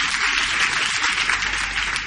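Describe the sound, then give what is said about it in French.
An audience applauds for Jesus during a worship service, a dense, steady wash of loud clapping that fills the whole clip without pause or voices standing out. “Est-ce que tu peux acclamer Jésus?”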